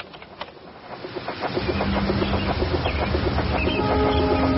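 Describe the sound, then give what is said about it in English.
Train sound from the background of a tape recording: a rumbling, rhythmic clatter that grows steadily louder, with sustained tones emerging toward the end. “That is a train, isn't it? It is.”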